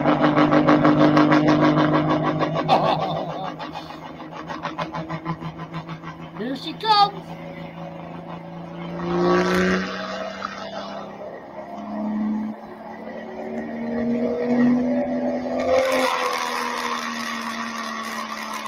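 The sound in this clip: A car engine with its exhaust routed outside and no restriction hums steadily under people talking, with a few brief louder surges in between.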